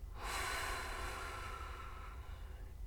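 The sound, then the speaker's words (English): A deep breath taken during a calming exercise, heard as one long, steady breathy rush of air that starts abruptly and gradually tapers off. “take a few deep breaths. Inhale. Exhale.”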